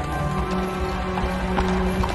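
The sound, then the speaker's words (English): A horse's hooves clip-clop steadily as it pulls a carriage. The hoofbeats form a continuous, even rhythm of many steps with a dense rumbling mix behind them. “In a nearby clearing, a horse-drawn carriage emerges from fog. Christmas lights glow on the carriage, and a driver with a short white beard holds the horse's reins.”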